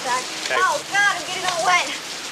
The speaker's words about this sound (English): She spins playfully in the rain, then heads inside.